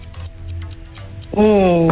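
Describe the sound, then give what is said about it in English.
A quiz timer ticks in a steady, quick rhythm of sharp, light clicks, and a loud, sustained tonal sound enters about two-thirds of the way through. “3, 2, 1, hit the timer.”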